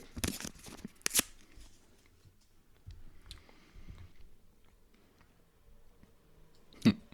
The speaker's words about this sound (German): Umschlag 3. Also. Den mache ich jetzt auf.